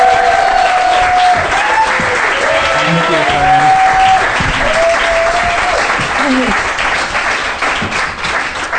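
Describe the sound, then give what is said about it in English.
A live audience greets a comedian coming onto the stage with loud, sustained clapping. Sharp whistles and scattered cheers rise over the applause, which thins slightly toward the end. “Will you put your hands together and welcome to the stage, Fern Brady, everybody.”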